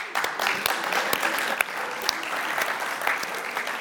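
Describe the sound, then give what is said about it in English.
Applause from an audience at a talk: a moderate, uneven patter of clapping with a few sharp, distinct claps standing out above the rest. “they said we should applaud her, you know, for this”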